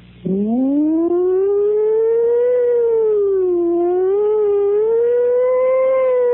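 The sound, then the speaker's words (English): A wailing emergency siren of the kind used by police, fire or ambulance vehicles starts abruptly, climbs in pitch, then holds a loud, steady tone that slowly wavers up and down, with no voices. “the sound of a distant, approaching, and receding siren. Squad car, the police, the fire department”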